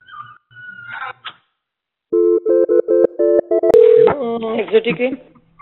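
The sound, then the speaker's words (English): Telephone tones after a call is hung up: a string of short, evenly spaced beeps, then a brief sustained tone, followed by a wavering, voice-like sound. “Yes, hang up the phone.”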